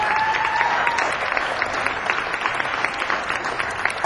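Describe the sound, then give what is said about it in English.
Audience applause for the sound crew and volunteers, a steady wash of many hands clapping without pause from start to finish. “So let's give the sound crew and the volunteers a hand.”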